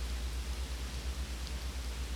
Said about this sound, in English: You can hear the rain pouring, and everyone agrees.